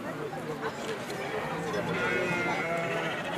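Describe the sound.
Sheep bleat in a flock gathered at a sheepfold while shepherds and breeders divide the herds. Many overlapping bleats form a dense, steady chorus that holds at an even loudness throughout.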